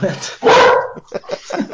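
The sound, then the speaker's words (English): A dog lets out one loud, sharp bark, followed by people talking. “someone's dog loves the mini games you play in that game. Yeah, well, she likes the Lands Mirror, so it works. Anytime I talk about it, she gets really excited.”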